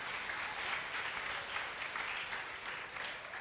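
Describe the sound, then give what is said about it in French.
Applause from a church audience welcoming a man to the front: dense, steady clapping that stays even and fairly loud throughout, with no clear voices above it. “Tumpigie papa makofi. Est-ce qu'on peut acclamer pour notre papa?”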